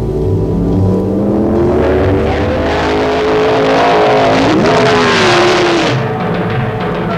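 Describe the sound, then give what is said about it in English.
A 1972 Ferrari Dino 246 GT Pininfarina is driven, its loud engine holding a steady drone before revving higher partway through, then settling again. “As unbelievable as it may sound, prize package number 158 is a brand new 1972 Flaming Fire Red 246 GT Pininfarina Dino Ferrari.”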